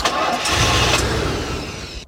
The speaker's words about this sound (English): My car won't start. Son of a... Good, got it started.